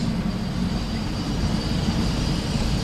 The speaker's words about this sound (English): That's a train. That's the tourist tram.